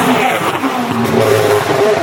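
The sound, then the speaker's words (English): A WRC rally car races past on an event stage in Catalonia. It makes a loud, continuous engine roar whose tones shift as it goes by, with no talking. “as another car came by.”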